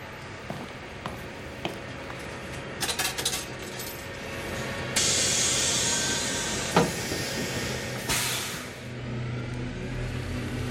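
A bus: a low engine rumble under scattered clicks and knocks, with two loud bursts of air hiss partway through.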